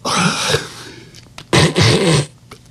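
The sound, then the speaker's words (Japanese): A voice imitates loud, wet nasal sniffling, the kind made by a man with rhinitis. Two long, noisy snorting bursts are separated by a brief lull with small clicks. “これ、いびきじゃないですよ。鼻すすってるんですよ。なんか、鼻炎かなんからしくてですね。”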